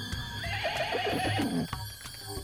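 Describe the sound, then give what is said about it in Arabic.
A horse neighs in a loud, wavering whinny that rises and trembles over about a second, set against a steady noisy background as riders set out on horseback to search. “كل واحد من الشباب ركب حصان وظهر يبحث عن ندى”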